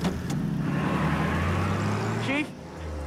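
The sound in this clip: Car driving off, its low engine rumble steady and fairly loud before dropping sharply in level near the end.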